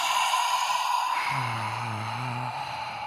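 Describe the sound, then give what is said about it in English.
A person demonstrates an ujjayi-style inhale through the nose with lips sealed and the back of the throat constricted. An airy hiss is followed by a low, buzzing, voiced rasp that holds for about a second before stopping. “lips are sealed, constricting the back of the throat. So how I teach it in class, so we'll just do this. Imagine you have a pocket mirror in your hands. You're going to breathe in, HR.”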